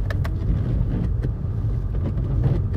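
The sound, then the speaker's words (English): A steady, low rumble of engine and road noise from a car as it drives through a roundabout, continuous and even throughout, with no speech. “Now, I'm really impressed with steering of this car. I just went through roundabout.”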